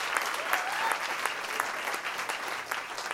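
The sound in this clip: An audience at a live literature and music event greets a speaker with applause: dense, even clapping that stays loud and steady from start to finish.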